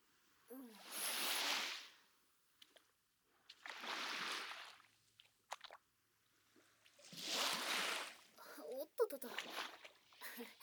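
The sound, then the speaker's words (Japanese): Feet wade through shallow sea waves, making three soft, breathy swishes of splashing water separated by quiet gaps, with small drips and plops near the end. “ちょっと足が波に取られそうになっちゃった。”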